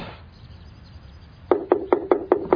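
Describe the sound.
Knocking on a door: six quick, evenly spaced knocks come after a stretch of quiet background hiss.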